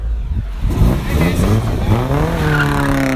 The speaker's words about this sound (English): Small truck boys are coming around. They're revving their engine.